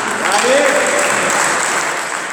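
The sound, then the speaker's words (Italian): Applause for a sports club being honoured at an award ceremony during a Torball tournament. The clapping is loud, dense and continuous, and a voice briefly rises above it early on. “Quindi un grande applauso ancora alla polisportiva per questi suoi anni di attività.”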